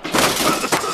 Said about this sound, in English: This is the sound of renovating your bathroom.